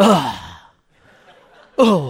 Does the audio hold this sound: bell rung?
no